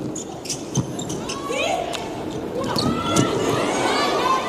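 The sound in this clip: A volleyball serve in a USA vs Italy match: a sharp ball strike rises briefly above a steady crowd murmur, with a voice talking over the scene.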